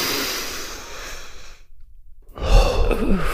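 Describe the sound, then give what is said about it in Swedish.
A deep breath taken while stretching the arms straight up toward the ceiling: a long, soft, breathy rush of air, a short silent pause, then a louder, rougher burst of breath. “Och så sträcker ni armarna rakt upp mot taket. Och så drar ni samtidigt ett djupt andetag.”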